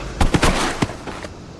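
Sharp gunfire during a tense armed standoff, a few loud, abrupt cracks close together in the first second, followed by a fainter pop over a noisy, busy background.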